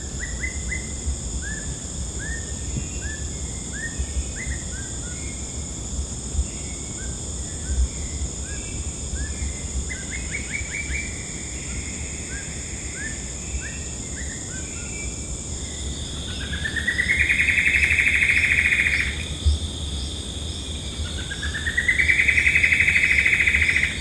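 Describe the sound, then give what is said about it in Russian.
A small Amazonian bird sings in the wild, repeating high, quick chirping phrases over a steady insect drone, with two louder, longer trilling bursts near the end. “записала амазонского колючника. Это такая маленькая птица, которую практически невозможно увидеть.”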